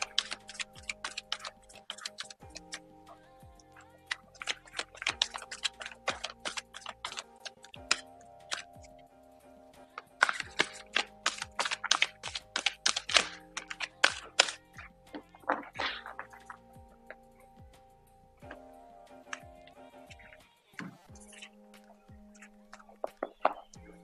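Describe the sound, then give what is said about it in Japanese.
Tarot cards being shuffled by hand: several bouts of rapid, crisp flicking and clicking, louder in the middle stretch, set over soft sustained background music with no talk. “カードをシャッフルします。少々お待ちください。”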